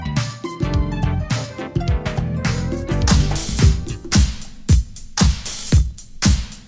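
Recorded funk-soul dance music plays loud and steady. Punchy drum hits and a rhythmic bass line sit under layered instruments.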